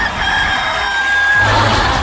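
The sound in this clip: A rooster crows in one long drawn-out call, fairly faint against a noisy background, with no talk over it.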